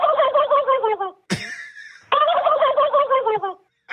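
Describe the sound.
A human voice imitates a turkey gobble. Two long, rapid, warbling gobbles are separated by a sharp, raspy squawk, and the call stands alone and loud with a short silence before it starts again.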